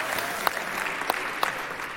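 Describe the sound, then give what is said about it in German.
Audience applause fills the space as a steady wash of many hands clapping, with a few sharper, brighter accents standing out above the even patter. “Also das ist mindestens ein 10-Punkte-Applaus wert.”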